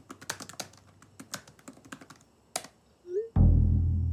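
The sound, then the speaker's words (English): Fingers type on a computer keyboard in a quick, uneven run of many sharp clicks. A brief squeak and then a sudden louder sustained noise follow at the end. “She types again.”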